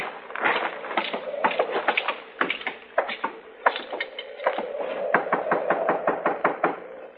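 Rapid knocking on the door of a house with a porch, many sharp raps coming in irregular bursts with brief pauses between them, steady and insistent at a moderate loudness.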